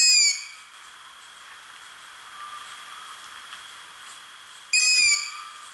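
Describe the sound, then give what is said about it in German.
Long-eared owl fledglings giving high, squeaky begging calls from a played recording: two short, piercing harmonic calls, one at the very start and one near the end, with a steady faint hiss between them. “Ein guter Punkt, um auf die Waldohreule aufmerksam zu werden, ist, wenn sie Junge hat, also Ästlinge, und wenn die dann rufen. Der Ruf ist nämlich ganz, ganz markant. Ich spiele ihn euch mal ab.”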